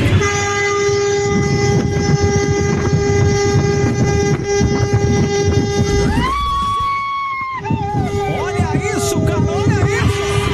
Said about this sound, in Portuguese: Ele buzinou, mas com vontade, cara, na madrugada.